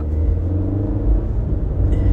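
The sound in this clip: A car driving on a road, a loud, steady low rumble that holds throughout without any voices.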